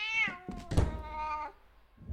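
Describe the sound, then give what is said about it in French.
A cat meows at a door, one drawn-out, fairly high meow with a dull knock partway through, on its own with no talk. “Chatoun continuait de miauler en grattant.”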